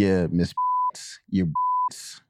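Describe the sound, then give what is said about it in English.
Two censor bleeps, each a steady pure mid-pitched tone lasting about a third of a second, cut over names in quick male speech, with bursts of talk before and between them. “Beep, beep, beep. Beep, yo, engineer, beep them names out.”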